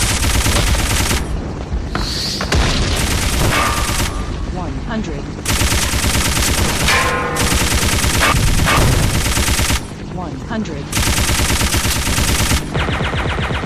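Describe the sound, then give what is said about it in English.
Loud machine gun fire in a video game, long sustained bursts broken by brief pauses, with a person talking over the shooting. “Ooh, he's shooting a machine gun at me.”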